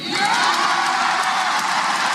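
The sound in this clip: A crowd cheers and whoops for the Harvard university president: a dense, steady roar of many voices with scattered shouts, staying loud throughout.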